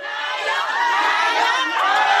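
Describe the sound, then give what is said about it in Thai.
Members of the Thai community cheer and shout a welcome inside a Thai Buddhist temple in Queens, New York. Many voices overlap in a loud, continuous crowd roar. “เสียงร้องต้อนรับและการเรียกว่านายกที่ดังขึ้นภายในวัดพุทธไทยถาวรวนารามในย่านควีนส์”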